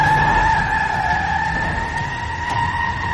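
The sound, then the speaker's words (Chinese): Tyres squeal sharply against the road as three cars brake hard and stop at the same moment, a loud, unbroken, high screech that holds steady over a low road rumble for the whole clip. “伴随着轮胎摩擦地面的声音，三辆车同时停下来。”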